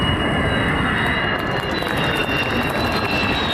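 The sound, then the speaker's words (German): A Turkish-built Kaan stealth fighter jet with a US-supplied engine roars on its maiden flight. The roar is loud and steady, with a thin high whine running through it and no clear change in pitch. “Februar 24, Jungfernflug des Tarnkappenjägers Khan, made in Türkei.”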